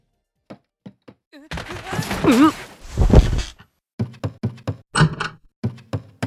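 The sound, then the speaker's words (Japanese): Someone misses a step on a staircase and stumbles: a few light footfalls, then heavy thuds as a voice cries out, followed by a quick run of knocking steps. “すみません、階段を踏み外してしまいました。あ、でも転んでません。”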